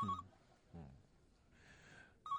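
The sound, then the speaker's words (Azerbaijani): A telephone rings in faint, shrill bursts, with a brief ring at the start and another at the end and a softer buzzing ring between them. “Telefona ha. Cavab ver.”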